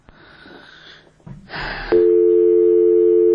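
A telephone busy signal on a failed call sets in as a loud, steady, continuous mid-pitched tone, preceded by a short stretch of breathy noise and a rushing burst.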